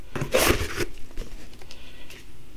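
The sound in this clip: Paper tears and crinkles as a gift package is unwrapped: a loud, rough rip near the start, followed by scattered softer rustling and crackling.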